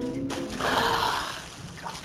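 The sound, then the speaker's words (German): A splash and slosh of water as a head surfaces from a clear, water-filled tub, a short swell of rushing water that peaks and then eases away. “Ich klopfte an den Bottich und ein hübscher Kopf tauchte auf.”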